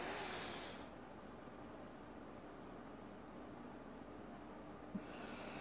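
A faint, airy rush of breath exhaled through the left nostril during a breathing exercise. It fades out after the first second, leaving near silence, and another soft breath starts near the end.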